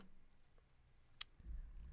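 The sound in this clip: A single sharp, faint click stands out against a quiet background, followed by a soft low rumble.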